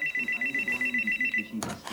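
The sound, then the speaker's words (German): A telephone rings at home with a rapid, regular electronic trill of many short pulses, moderately loud, before it breaks off into a brief burst of noise. “klingelt das Telefon”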